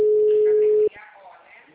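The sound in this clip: A telephone tone sounds during an outgoing call: one steady, mid-pitched beep under a second long that cuts off abruptly, followed by a faint voice.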